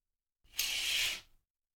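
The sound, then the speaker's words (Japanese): A curtain swishes open in one smooth pull: a single bright hiss of just under a second that rises quickly, holds and fades, alone in silence. “じゃあカーテン開けるよ。”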